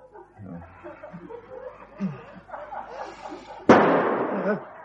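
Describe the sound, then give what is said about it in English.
A single sharp gunshot-like bang cuts in after a stretch of talk, followed by a noisy decaying tail about a second long; voices are heard before it. “Nonsense, dear. It's probably just Mr. Mutby shooting an intruder.”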